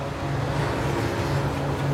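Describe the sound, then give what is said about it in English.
Cars moving along a highway produce a steady, unbroken roar of traffic with a low droning hum underneath, holding an even level throughout with no single vehicle standing out. “Outside, cars move along the highway.”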